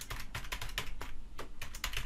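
Typing on a computer keyboard while a custom field name is entered into a software form: a rapid, steady run of many crisp key clicks with no voices.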